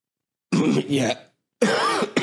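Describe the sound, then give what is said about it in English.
A person coughs a few times in two quick, harsh bursts, first a double cough and then one more after a brief silence. The coughs are fairly loud and heard alone. “excuse me, coughing”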